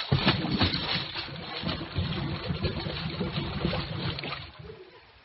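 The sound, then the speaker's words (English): A new Cadillac crashes through a fence and plunges into a swimming pool, making a loud, continuous churning splash of water that holds steady and then tapers off at the end. “Told you that would stop it. Right into the water. Don't worry. It's a new Cadillac.”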